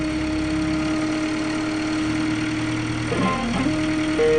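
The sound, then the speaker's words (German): An aluminium engine taken from a dented Subaru and mounted on a homemade aircraft runs with a steady mechanical drone, its pitch dipping briefly and then rising again near the end. “Sie bauen bei Pubs einen Aluminiummotor aus einem zerbeulten Subaru aus und montieren ihn vorn ins Flugzeug.”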